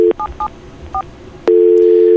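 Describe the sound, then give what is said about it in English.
Telephone touch-tone DTMF beeps dial a trunk access number: three short tones, the first two identical, followed by a steady, loud dial tone. “774, that's the trunk number to get into it. Now let's dial the, here's the their time number, which is on Eastern time.”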